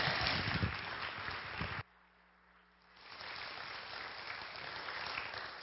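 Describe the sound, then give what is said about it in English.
A crowd claps in praise after a testimony, a faint, dense patter of applause. It drops away abruptly for about a second, then builds back up and carries on steadily. “Give the Lord a hand.”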